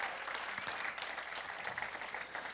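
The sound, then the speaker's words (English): Church audience applauding the volunteers who run Sunday services, a soft but sustained wash of many hands clapping at an even, unbroken level. “I think we should give a round of applause to everybody that makes church happen.”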